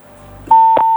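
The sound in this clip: A steady, loud electronic telephone tone at one constant pitch, heard while a call is being connected. It lasts about half a second with a brief click partway through, after a quieter low hum.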